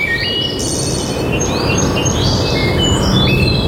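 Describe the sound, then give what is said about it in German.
Birdsong in a Bavarian forest: many bright chirps, whistles and rising and falling trills over a dense, constant rustling wash of ambient noise, with the calls overlapping throughout. “Hier im Wald klingt Bayern anders. Hör hin. Bäume, Wurzeln,”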